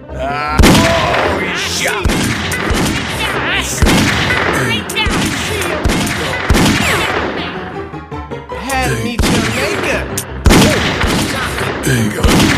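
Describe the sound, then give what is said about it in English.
Sharp gunshots crack repeatedly through a loud, dense video game shootout. Irregular bursts run across the whole stretch over a busy bed of other effects. “He got me. He shot me.”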